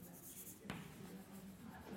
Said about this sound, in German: ich schreibe nochmal deutlichkeitshalber hin, für alle x aus i.